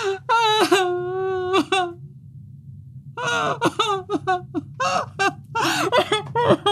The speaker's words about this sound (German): Hör doch auf rumzuheulen jetzt hier.